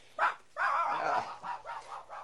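A small dog barks in a quick string of high yips and short barks. A longer bark comes early, then a few brief ones, moderately loud and alone.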